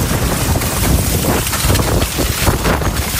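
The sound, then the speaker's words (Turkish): Strong storm wind roaring through a city during a sudden windstorm in Istanbul, a steady, loud, buffeting rush of air with gusty surges and no voices. “Fırtına hemen şu istikametten geliyor. Zaten ileride toz bulutlarını falan görüyorsunuz.”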